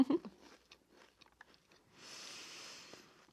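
Faint crunching and chewing of a Pie no Mi flaky pie snack. A few small crisp clicks come first, then about a second of continuous crunchy chewing. No voices are heard.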